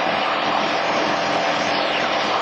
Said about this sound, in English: Keep the ball centered. Keep the plane turning.